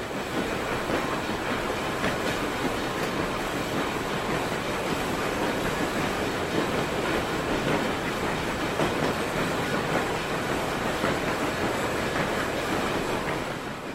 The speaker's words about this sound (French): Ils sont réembarqués dans les wagons. Des résistants prisonniers du fort du Ha de Bordeaux les rejoignent dans le train et le train part enfin vers le nord.